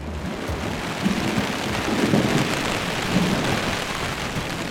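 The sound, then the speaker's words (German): Wind and heavy rain batter a camping tent on a lake island among hills thick with spruce. A loud, constant roar of rain hiss carries low, buffeting rumbles that swell a few times. “Und jetzt brettert hier der Wind und der Regen gegen das Zelt und drückt das total platt.”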